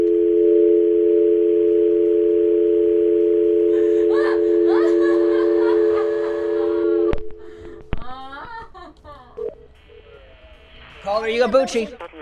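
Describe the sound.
Telephone dial tone after a call has been disconnected: a steady, continuous tone holds for about seven seconds, then cuts off and talking follows.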